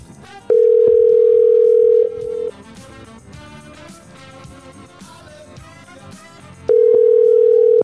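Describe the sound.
A telephone dial tone sounds while a listener is being called, a loud, steady, unbroken hum heard twice, first for about two seconds and then again near the end, with quieter background sound between.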